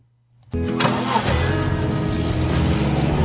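A car engine, a convertible with its top down, starts abruptly and then runs loud and steady as the car drives off.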